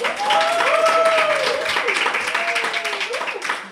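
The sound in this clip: An audience claps at a Book Day event about books and literature, a lively patter of many hands with a voice talking over it, thinning into scattered claps toward the end.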